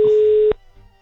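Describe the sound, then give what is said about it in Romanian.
Telephone ring tone on an unanswered call: a single steady, mid-pitched electronic tone lasting about half a second, then cutting off into near silence. “Păi ca și astăzi, rezultatul e același, că nu ni se răspunde la telefon.”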